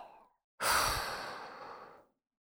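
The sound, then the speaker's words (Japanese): One long exhale, a breathy airy whoosh that starts abruptly, holds for about a second and a half, then fades out alone. “吐いて、ふぅ。吸って、吐いて。”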